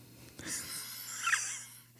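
A single deep breath, airy and slightly wheezy, drawn slowly over about a second and a half, faint against a low steady hum.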